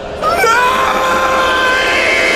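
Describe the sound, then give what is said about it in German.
A man screams in a horror audio drama scene where he faces executioners. The loud, strained cry breaks in abruptly and holds a high, wavering pitch until the end. “Dein Schreien ist zwecklos, Elender. Niemand wird dich hören.”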